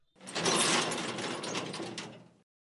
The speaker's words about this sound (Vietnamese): Cùng với tiếng cửa sắt nặng nề vang lên, 2 cánh cửa sắt bỗng nhiên mở ra trong hành lang yên tĩnh như vậy